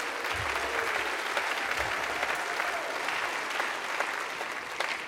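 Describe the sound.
An audience applauds steadily to welcome a speaker at a church service. The dense clapping holds at an even level for several seconds.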